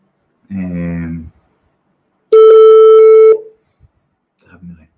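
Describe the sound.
Telephone line tone while a call is placed: one loud, steady electronic tone holding for about a second, followed by quiet.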